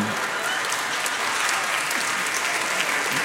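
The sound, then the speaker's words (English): Audience applause fills the whole stretch as dense, steady clapping from many hands, fairly loud and unbroken, with no talking over it. “let's clap for that for sure.”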